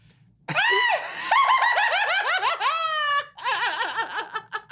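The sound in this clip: A voice imitates a gremlin with shrill, squealing, giggling cries that warble rapidly up and down in pitch. The loud cries run continuously for a few seconds, pause briefly, then resume in choppier wobbling bursts.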